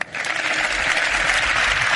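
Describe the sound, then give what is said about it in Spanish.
Crowd applause after a speech at a football club event. A dense, steady clatter of many hands clapping is sustained at an even level for the whole clip. “ahí están los aplausos al discurso de Marcos”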